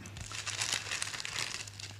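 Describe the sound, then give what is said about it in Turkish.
Paper package torn open and unwrapped, a continuous crinkling, rustling crackle lasting about two seconds over a steady low hum. “Her şey şu pakette. Açsana paketi.”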